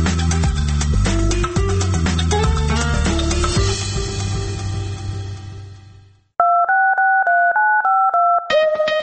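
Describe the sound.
Touch-tone beeps of a phone number being dialed, a quick run of steady dual-tone beeps that follows a stretch of music fading out.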